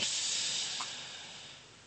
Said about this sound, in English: Please do a deep inhale and exhale.